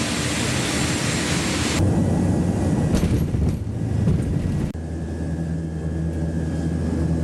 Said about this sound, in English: Yeah, this is the airport of Buenaventura.